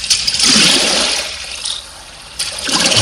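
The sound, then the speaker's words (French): Oars of a rowing boat splashing in water: loud surging, rushing swishes that fade to a brief lull, then return for another stroke. “C'est des rames dans l'eau. Très bien. Une barque, bien, bravo.”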